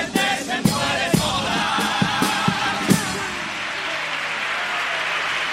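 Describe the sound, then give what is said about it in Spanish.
Carnival audience applauding a pasodoble: lively clapping and crowd cheering that holds at a fairly loud level, with several sharper bursts of claps standing out early on. “pues segundo paso doble, que obtiene el respaldo del público, muchas palmas al aire, efusivamente arropada esta letra.”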